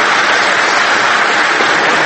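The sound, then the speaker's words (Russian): Warsaw University students applauding a US presidential candidate: loud, dense clapping that stays even and unbroken throughout. “Кандидат на пост президента США выступил также перед студентами Варшавского университета, которые встретили его аплодисментами.”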